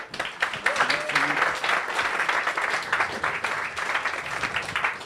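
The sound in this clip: Audience applause welcoming two speakers at a public talk on the new space industry: continuous, thick clapping that keeps an even strength throughout, with a voice briefly audible at the start.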